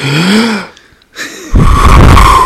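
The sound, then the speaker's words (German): A loud, deep exhale blown straight into a microphone during a group relaxation breathing exercise. It comes after a brief moment of talk and a pause, then swells into a roaring rush of air with a heavy low rumble. “Das war bestimmt mega unangenehm, gerade das Ausatmen.”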